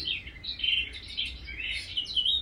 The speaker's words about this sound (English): So I stopped and the birds were chirping, and I invited you to have a still point.